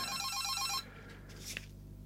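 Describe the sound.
A telephone rings with a fast, warbling electronic trill, heard faintly for under a second before cutting off, followed by a short click.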